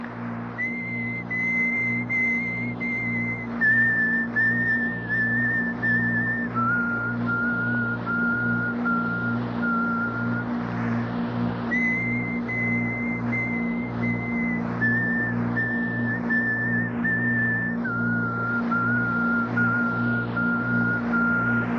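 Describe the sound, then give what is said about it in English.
A sustained human whistle accompanies a drinking ritual in which leaves are beaten against a baby's body. Each held tone steps down in pitch across a three-note phrase, and the phrase repeats twice over a low, steadily pulsing background drone. “so that you'd hear the ch of the leaves beating on the body of the baby, and then this whistle.”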